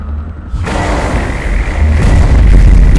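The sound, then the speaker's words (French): Explosions under enemy fire: a deep, booming rumble bursts in suddenly, then swells louder and heavier, with a broad, roaring low-end that continues without a break. “On est sous le tir ennemi, dégagez-vous plus vite!”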